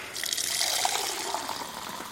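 Water running from a tap into a drinking glass, a faint, steady splashing trickle that continues without pause and with no talk.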